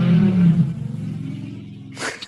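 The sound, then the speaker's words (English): A motorcycle passes on a busy street, its low engine rumble droning steadily and gradually easing off, with a short, sharper burst of noise near the end. “Sorry, I live by a busy street. Sometimes motorcycles go by.”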